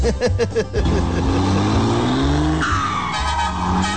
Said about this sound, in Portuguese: Acelera muito não, menino. Vai cair a mudança, rapaz.